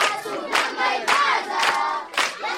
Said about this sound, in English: The boisterous singing of Sudanese children living at the Meche refugee camp in eastern Chad belies the horrors of war that they witnessed in the Darfur region.